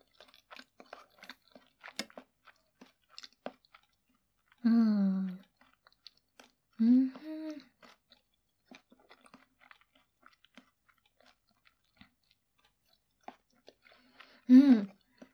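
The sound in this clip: Soft chewing of a dish with white sauce and bacon: many faint, irregular mouth clicks, broken by a few short bursts of voice.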